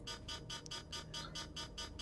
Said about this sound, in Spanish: Daré una alarma.